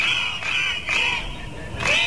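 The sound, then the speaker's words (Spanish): Crowd of striking teachers at a protest in Catalonia, a loud, continuous roar of shouting and whistling that comes in several surges with brief dips between them. “Y este es el sonido de una nueva jornada de protestas de los profesores en Cataluña.”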